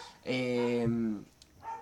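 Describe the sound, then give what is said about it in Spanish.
A dog barks in a drawn-out, whining, tonal bark lasting about a second, followed by a fainter, brief sound. “Tenemos un perro acá, sí, que está también, quiere charlar, pero ahora va, me parece.”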